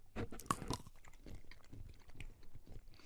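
Crunchy chewing of a chocolate-covered snack with a pink strawberry filling: a run of many close, irregular bites and munching, with a sharper crunch early on and softer chewing after. No one speaks.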